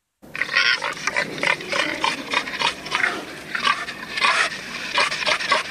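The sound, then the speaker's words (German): Greeting calls of a wild boar: many short, rough grunts and snorts in quick, irregular succession, fairly loud and heard without other sounds. “Das sind Begrüssungslaut von einem Wildschwein, so wie im Museum mit noch anderen Leuten in dieser Ausstellung kann hören.”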